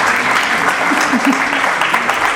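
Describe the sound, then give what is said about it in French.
An audience applauds steadily, a loud, continuous wash of many hands clapping that neither swells nor fades. “Merci beaucoup. Je crois que vous pouvez l'applaudir”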